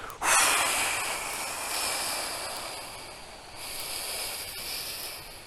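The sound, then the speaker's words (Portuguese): A slow, steady exhale through the mouth during a paced breathing exercise. The breathy hiss starts abruptly and lasts about five seconds, fading gradually and swelling slightly again near the end. “você vai exalar pelo nariz, de novo, ou pela boca, tanto faz. Pode ser até pela boca, eu faço pela boca, para ser sincero com você. Por 8 segundos. Então você vai fazer assim.”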